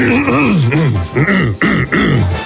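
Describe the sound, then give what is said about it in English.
A man clears his throat on air in a few drawn-out, rasping voiced bursts whose pitch wavers up and down, each separated by brief gaps, with no words spoken. “They say it's very rude to clear one's throat on the air.”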